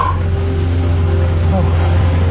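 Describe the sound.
Steady engine drone of a car being driven, a constant low hum with a faint tonal whine that holds throughout without a rev or a pause.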